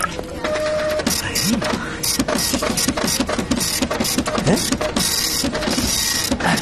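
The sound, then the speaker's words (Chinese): A printer printing a document: rapid, rhythmic mechanical whirring and clicking as the print head makes repeated passes, running without pause. “你打印的这玩意儿出来了啊？”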